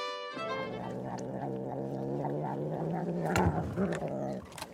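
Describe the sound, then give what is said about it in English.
A cat purring: a steady, sustained low rumble with a strong tonal, harmonic quality that carries through the whole clip without pause. “It's the sound of a purring cat.”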